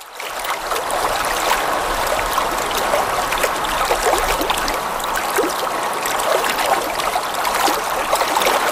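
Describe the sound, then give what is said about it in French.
Water flowing and trickling at Lac Saint-Jean: a steady, continuous babble of dense splashing detail that stays even in loudness throughout, with no voices. “ça, c'est pas l'eau de la serre. Il n'y a pas personne qui marche avec ses bottes à douille dans le système d'eau de la serre. On est ailleurs. Ben oui. On est au lac Saint-Jean”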